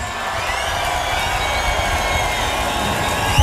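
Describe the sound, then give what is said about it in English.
A crowd cheers and makes noise for a performer at a show in Belgium, a dense, steady roar of many voices that holds at an even level throughout, with no clear talk. “Whoever you are, wherever you're from, please make some noise for Eli Oakes.”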